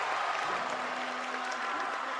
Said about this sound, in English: And Pittsfield is going to take a timeout as the crowd goes wild for Old Rochester.